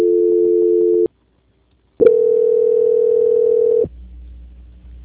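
Telephone tones mark a call transfer: a steady hum-like tone for about a second, a short silence, then a slightly higher, longer steady tone that starts with a click and gives way to a faint low line hum.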